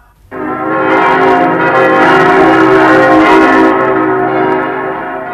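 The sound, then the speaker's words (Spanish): Bells ring out loudly to celebrate a prince's wedding at the close of a fairy tale, a full, sustained wash of resonant tones that holds steady for several seconds before easing slightly. “¡Trompetas! ¡Campanas!”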